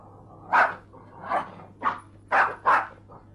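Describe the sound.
A small dog barks in short, sharp bursts, five clear yaps at an uneven pace followed by a fainter one, over a low steady hum.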